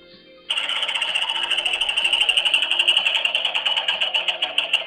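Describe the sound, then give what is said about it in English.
A prize wheel spins in an onion roulette game, giving a fast, continuous rattle of clicks that holds steady for several seconds before easing off slightly. “Okay, so we spun the wheel.”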